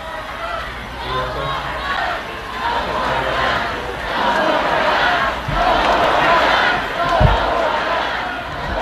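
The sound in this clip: A crowd chants on the lawn of an amphitheater at a vigil after a mass shooting. Many voices swell loudly in rhythmic waves, and a couple of dull thumps break through.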